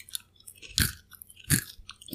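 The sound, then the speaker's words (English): Crunchy candy-coated white chocolate, like crispy M&Ms, being chewed: two loud, crisp crunches stand out among softer chewing clicks, with no talk. “It sounded like the crispy M&Ms. It's kind of crispy on the inside.”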